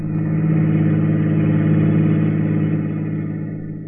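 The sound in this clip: A convertible car drives off with a steady, smooth engine hum that stays even at first and then gradually fades toward the end.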